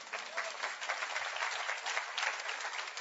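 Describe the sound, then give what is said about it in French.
A church audience of about fifteen people applauds with steady, moderate clapping that stays even throughout, without a clear build or fade. “que Dieu soit béni, il y en a 15 qui applaudissent.”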